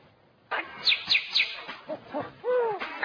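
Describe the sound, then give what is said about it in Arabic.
A parrot mimics strange sounds, giving three sharp, high whistled chirps in quick succession, then lower hoot-like notes and a longer warbling tonal call that bends up and down. “اهو ده ببغاء اهو بيقلد لنا اصوات غريبة، بيقلدك انت شخصيا يا انسان.”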